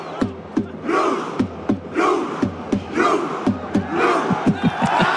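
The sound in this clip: Norwegian fans chant loudly as Norway pushes toward a World Cup title. Surges of massed voices are punctuated by sharp, regular beats that keep a steady rhythm throughout.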